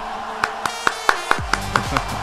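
Hand claps cued for a radio station's technical operator: eight sharp, evenly spaced claps in a steady rhythm, with a low tonal sound sliding underneath in the second half.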